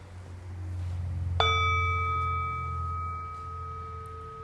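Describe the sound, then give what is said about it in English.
A bell struck once, its clear ringing tone sustaining and slowly fading over a few seconds above a steady low hum. “You know, we might have a pleasant association with the bell.”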